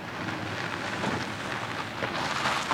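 Rain falls steadily as a radio-drama sound effect, a dense, even hiss of drops with no voices, holding at a constant level throughout.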